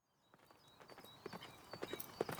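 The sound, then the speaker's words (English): Hoofbeats of a knight's horse galloping toward Winchester. Many quick, uneven thuds start faint and grow steadily louder over the short stretch, with no voices. “A knight on horseback gallops towards the city of Winchester in southern England.”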